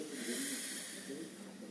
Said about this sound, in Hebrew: שאיפה שנייה, נשיפה. שאיפה שלישית,